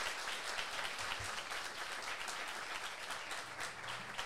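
Audience applause welcoming guests at the Havas Cafe, a steady wash of many hands clapping at a low, even level from start to finish, without voices.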